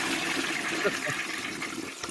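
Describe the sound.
A toilet flushes with a steady rush of water that fills the whole short clip at an even, moderate level.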